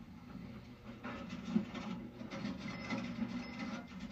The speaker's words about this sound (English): What's happening now? They're adding it all up. In their head? No, on machines.